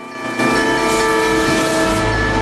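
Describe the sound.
A moving train at a railroad crossing gives a loud, continuous rumble with steady droning tones layered on top. The sound holds at an even level throughout.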